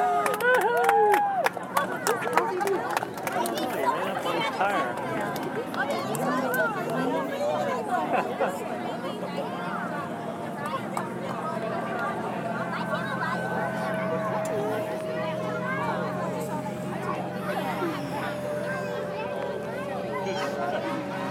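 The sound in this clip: Crowd chatter at a street parade: a steady babble of many voices and scattered shouts, with nearby people talking over the hubbub.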